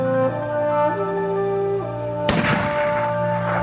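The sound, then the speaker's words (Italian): A single rifle shot, fired as a signal in an early wireless experiment, cracks out suddenly over sustained musical tones and then decays into a rough, fading rumble. “E prendi un fucile e se senti i miei segnali, spara.”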